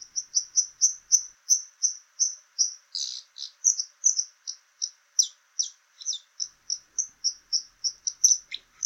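Dipper call: a long, rapid series of many sharp, high notes, mostly evenly repeated, with a brief stretch of buzzier, more varied notes partway through, heard alone without voices.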